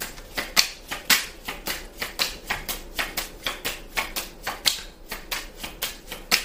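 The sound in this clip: Someone shuffles a deck of cards during a card reading, making a fast, rhythmic run of crisp, papery riffling bursts that repeat many times at an even pace and a fairly soft level.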